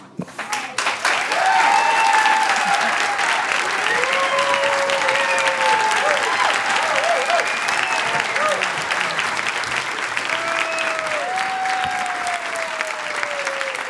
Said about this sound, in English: After telling her story, Dawn got a standing ovation from the audience.